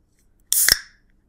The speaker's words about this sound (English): You want to explain to them what you just opened up? Ooh, that's a crispy boy. This is an iced tea.